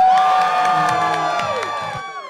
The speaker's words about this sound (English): give it up, everyone, for Sikisa!